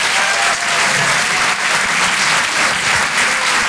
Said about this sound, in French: Faites du bruit, s'il vous plaît, pour Hugo Pêcheur.